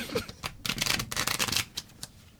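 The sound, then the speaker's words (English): A deck of playing cards being shuffled: rapid papery riffling builds into a dense fluttering burst in the middle, then trails off into a few softer flicks and rustles, fairly quiet and without voices. “And can you give them a shuffle? Whatever you want to do, as best as you can. Get a good shuffle in there”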